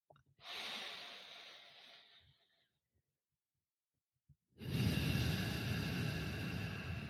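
Slow breaths during a guided breathing exercise: a soft, airy breath that fades out, then a pause, then a louder, fuller breath that continues to the end. No talking is heard.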